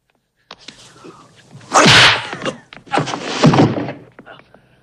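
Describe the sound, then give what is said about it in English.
Blows land in a fight as one man grabs the other's head, reverse-kicks him in the face and punches him. A few sharp thunks are followed by two longer, heavy swishing impact bursts, with smaller hits trailing off. “Lee grabs Han's head, reverse kicks him in the face, and punches him.”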